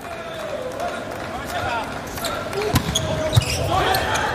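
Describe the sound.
A volleyball serve in a match, with a couple of sharp thuds of the ball being struck heard under continuous excited commentary.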